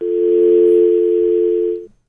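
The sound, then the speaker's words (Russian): A telephone tone after a dropped call: one steady, continuous mid-pitched tone holding for nearly two seconds, then cutting off abruptly. “Сбросился звонок.”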